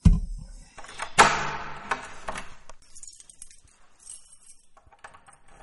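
A door is shut in a hurry with a hard thud. A second loud knock follows, then a burst of bright metallic key jingling and clinking that slowly fades, with a few faint clinks near the end.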